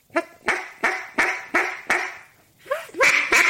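Hen duck quacks are blown on a duck call: a run of six evenly spaced, nasal quacks, a short pause, then a few more that are louder and grow closer together.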